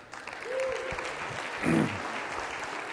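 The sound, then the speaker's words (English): A church audience applauds to welcome a new staff member with a steady wash of clapping that swells briefly near the end, while a voice speaks over it. “Let's give Lindsay a hand, you guys.”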